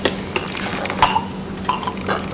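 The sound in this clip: A cup is handled with a few light clinks and knocks, sharp and brief, spaced unevenly over a low background hum.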